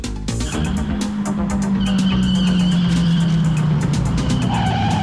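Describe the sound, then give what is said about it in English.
A Ferrari pulls up on a downtown Detroit street early in the morning, its engine rumbling under a long, loud tire squeal that sags slightly in pitch before fading into idling. “In early morning downtown Detroit, Jeff pulls up by a phone box in Axel's Ferrari.”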